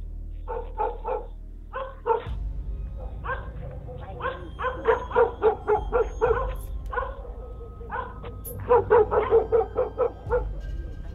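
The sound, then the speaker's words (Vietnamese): Dogs bark in a village at night, with many sharp barks and yips coming in irregular clusters and short pauses over a low steady hum. “Tiếng chó cắn ma trong làng cứ nhấm nha nhấm nhặng vang lên.”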